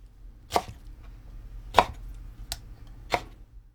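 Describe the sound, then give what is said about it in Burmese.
Knife chopping blanched, squeezed mustard green leaves on a chopping board, trimming the bases and cutting the leaves into 4 cm lengths. Four crisp, unevenly spaced thuds ring out alone against quiet. “အရွက်တွေကိုစနေလုံးပေါ်မှာတင်အရင်းကိုဖြတ်ထုတ်လိုက်ပြီးလို့ရှိရင်၄စင်တီမီတာအရွက်အရှည်ဖြစ်အောင်လှီးပ”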